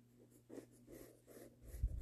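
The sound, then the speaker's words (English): A pencil sketches a drawing on paper in a few soft, dry, scratchy strokes that come in short bursts, quiet throughout, with a slightly heavier scrape at the end. “I'm just starting with the sketch now, and I'm almost done with it.”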